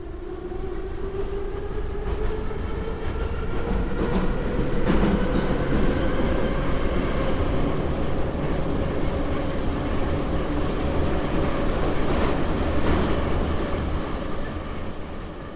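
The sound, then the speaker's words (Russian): A subway car rushes through a tunnel with a continuous loud roar and low rumble, a steady whining tone riding over it, and faint rhythmic clatter from the wheels throughout. “Вагон метро мерно покачивался, мчась во мраке тоннеля.”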